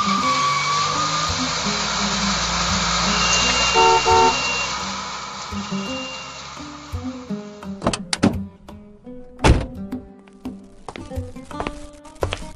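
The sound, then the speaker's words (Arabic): A car arrives at a door: steady engine rumble with a brief horn toot, then the engine drops away and a few sharp door thunks and clicks follow. “يبدو في سيارة يا رشاد على الباب”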